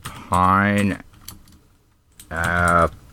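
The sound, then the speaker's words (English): Typing on a computer keyboard: a quick, faint patter of key clicks in the gap between two longer, sustained voiced sounds. “I can't type very well sideways and half drunk.”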